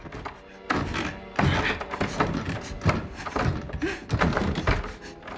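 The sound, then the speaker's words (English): Many irregular thumps and rattles as a doorknob is grabbed with both hands and the door is pulled desperately, the knocks uneven and fairly loud. “She grabs the doorknob with both hands and pulls at it desperately.”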